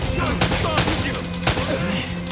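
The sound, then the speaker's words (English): Gunfire in a shooting video game as enemies attack on an island, with a few sharp, loud shots cracking out over constant game noise, and a voice briefly heard. “You always seem to be getting shot at. They're shooting at you too,”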